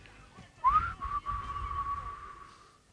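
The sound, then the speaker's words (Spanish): A person whistles a song in a whistling contest: one quiet whistled note slides upward, then holds steady for over a second before fading out. “Sí, y competencia de silbidos”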